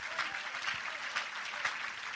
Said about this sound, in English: Oh, clap your hands, all ye people!